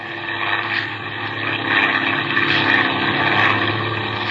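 A small airplane engine drones steadily in a tonal, buzzing hum that swells slightly louder partway through.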